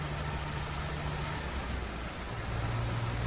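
A Porsche drives along, heard from inside the car: a steady low engine hum and a constant road noise, with no talk.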